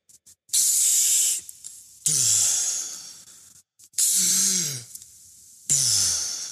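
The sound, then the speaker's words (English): Deep breathing during a breathing exercise, each full inhale followed by a let-go exhale: four loud, airy, hissing breaths separated by short pauses, with no talking. “a max inhale, raise your chest, breathe fully in, and then let it go.”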